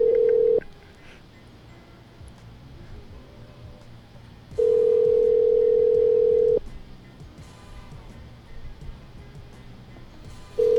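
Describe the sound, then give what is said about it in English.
Ringback tone of a telephone call waiting to be answered: a steady mid-pitched electronic tone in long bursts of about two seconds, separated by roughly four seconds of quiet line hiss, three bursts in all, the first and last cut short. “I don't think they're going to answer the phone.”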